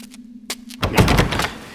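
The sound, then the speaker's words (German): In a radio drama a door is blocked shut: a sharp knock lands over a low steady hum, then a heavier rumbling thud follows with scraping clatter. “Mist, die haben die Tür blockiert.”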